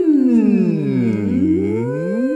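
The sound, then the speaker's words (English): A voice hums a sustained N sound as a vocal warm-up, a rich buzzing tone whose pitch glides down and then slowly climbs back up, alone and fairly loud throughout. “And then we move to an N sound.”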